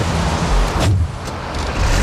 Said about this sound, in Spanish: se arranca. Eso no es eléctrico. Tiene que ser un coche eléctrico. En Copenhague tiene que ser un coche eléctrico, hombre. Este coche es de gasoil, por lo menos. Este coche es de diésel.